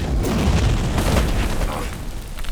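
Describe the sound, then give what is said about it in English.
A building exploding: a loud, deep roaring rumble that holds steady for the whole span, with crackling bursts on top and no break or quiet tail. “And the building explodes”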